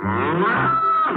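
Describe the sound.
A cow moos once, a loud, low, drawn-out bellow rich in harmonics that lasts about a second and is heard on its own.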